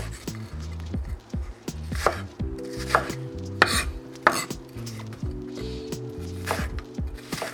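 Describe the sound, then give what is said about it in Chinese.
A knife chops onion on a cutting board in a home kitchen, with many quick, sharp, crisp strokes in an uneven rhythm over soft low background tones. “现在眼睛也是被熏的到处都是哎，还没还没切洋葱我就已经被熏到不行了。好，我现在把洋葱已经都切下来了”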